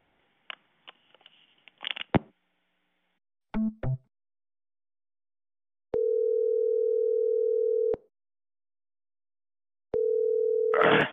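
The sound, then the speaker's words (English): A phone line after hanging up on a prank call: a few soft clicks and a clunk of the receiver, two quick blips, then two long steady electronic tone bursts separated by silence. “I'm afraid that this appointment, this phone call is inappropriate, so I'm going to hang up now, okay?”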